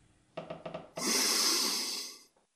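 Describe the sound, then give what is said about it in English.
A long breath, heard alone: a few short breathy puffs come first, then one sustained, loud, hissing breath lasting over a second that fades out at the end. “Why the long breath?”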